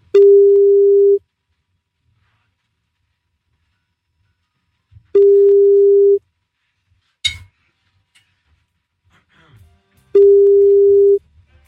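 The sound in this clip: A telephone ringback tone sounds while calling back, with three steady single-pitched tones, each lasting about a second and separated by long silent gaps, plus a brief click between the second and third.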